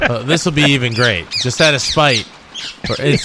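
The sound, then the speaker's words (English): Harsh bird squawks come in several raspy, harmonic bursts, loud and overlapping with a man talking. “What is the bird noise? I guess there's a bird there.”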